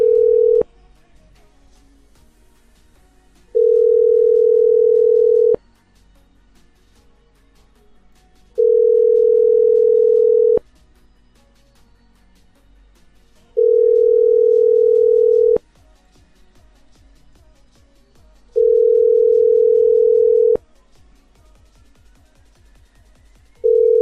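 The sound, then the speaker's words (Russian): A telephone line tone sounds after a number is dialed: a loud, steady mid-pitched beep of about two seconds repeats four times with roughly three-second gaps, a fifth beginning at the end, with faint clicks in between. “592-97. Набираю.”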